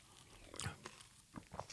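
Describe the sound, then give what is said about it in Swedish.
Faint crunchy chewing of crispbread eaten with a cold-pressed spinach, celery and ginger juice. A few soft bites and crunches come at irregular moments, with no clear talk. “Du smakar ju på den här också. Den här var ju supergod,”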